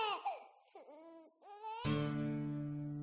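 A baby crying in wavering, whimpering wails that rise and dip in pitch, then a steady sustained tone takes over and holds to the end.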